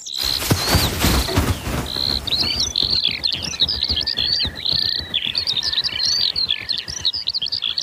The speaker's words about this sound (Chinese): 这就是云雀。这片草地环境开阔，小草也不是特别茂盛，正适合云雀生活。正是它们发出了叽叽喳喳的叫声。